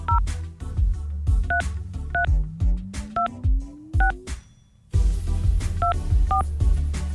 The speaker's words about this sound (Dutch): Zo, we gaan even bellen met Howard.